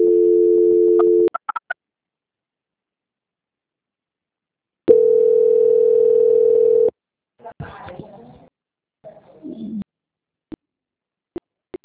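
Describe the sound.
Telephone line tones play while a call is transferred: a steady tone, a gap of silence, a longer steady tone, then brief garbled bursts and scattered clicks.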